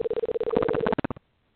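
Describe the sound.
A telephone line sounds a series of short beeps and a steady tone while a call is being placed. Another few short beeps follow before it cuts to silence.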